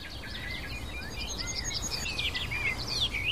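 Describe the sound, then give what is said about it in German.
A bird sings on and on, pouring out a steady string of high, quick chirps and trills with barely a pause, fairly faint over a low background rumble. “Also dieser Vogel hält gerade nichts zurück. Er singt und singt und singt.”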